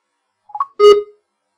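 A label scanner beeps while scanning a label: a few brief, quiet chirps followed by one louder, longer electronic beep, alone in silence.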